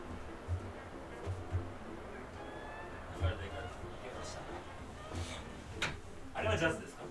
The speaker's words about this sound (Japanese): ちょっと窓開けてみてみようかな